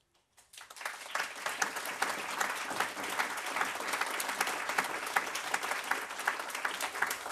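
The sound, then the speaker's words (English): Studio audience applause at a debate in London's Broadcasting House starts after a brief silence, then holds as a steady, dense clapping wash for several seconds. “Welcome first to our audience that you can hear here in London's Broadcasting House.”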